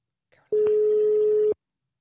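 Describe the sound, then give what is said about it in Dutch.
A single steady telephone line tone, heard while calling someone, holds one even mid pitch for about a second. A brief faint noise comes just before it. “we gaan gauw ophangen en Carolientje bellen”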